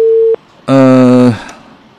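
A telephone line tone during a call placed from a studio: a steady pure beep cuts off abruptly, then after a short gap a buzzier, harmonic-rich tone sounds for about half a second before fading.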